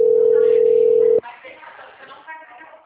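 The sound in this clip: Telephone line tone after a dropped call: a loud, steady mid-pitched tone holds for just over a second, then cuts off abruptly, followed by people talking.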